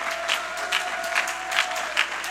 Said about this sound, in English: My God, you ought to clap your hands. Somebody ought to worship God this morning.